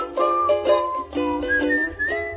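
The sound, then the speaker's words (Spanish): Whistled melody within video game music from a platform game, a clear tune of sustained, bright whistled notes stepping between pitches over a steady instrumental backing, fairly loud and with no talk. “Es Sam silbando.”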